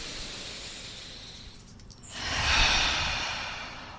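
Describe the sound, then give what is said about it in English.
Deep breathing in through the nose and out through the mouth: a soft airy inhale, a brief pause, then a louder, fuller sighing exhale that tapers gently away. “We're just going to take 3 deep breaths in through the nose with a sigh and a sound out of the mouth. Fully in. 2 more, fully in.”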